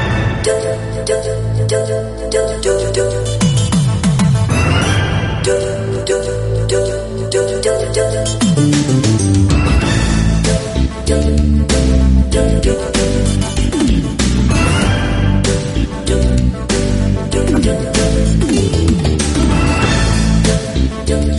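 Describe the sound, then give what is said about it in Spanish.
Main theme music from the video game Policenauts plays loud and continuous, with a dense full arrangement over a steady, driving bass line and bright layered melody that swells in places. “ya sonando de fondo el tema principal de este Police Nauts”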